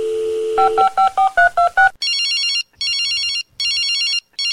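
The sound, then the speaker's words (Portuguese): A telephone being dialed: a steady tone, then a quick run of keypad beeps at varying pitches. Repeated bright electronic ringing bursts follow, three full bursts and the start of a fourth. “Vou aproveitar e ligar pra ele aí pra ver o que ele acha.”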